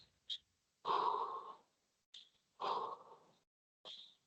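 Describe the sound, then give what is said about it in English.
Deep breathing exercise with full exhalations: a few breaths alternate between short sharp intakes and longer, louder, airy exhales, moderately loud with no speech. “And then all the way out. Breathe normally. I do about 15 sets of those.”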